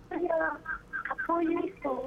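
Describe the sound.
A voice comes through on a telephone call-in, thin and band-limited as over a phone line, speaking in short phrases separated by brief pauses.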